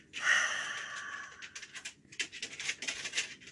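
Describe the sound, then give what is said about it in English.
A deep breath let out through an open mouth during a guided breathing exercise: a long, breathy rush of air that eases off, followed by several shorter, uneven breathy puffs. No talking. “Take a deep breath in. Open your mouth and let it go, all the air out.”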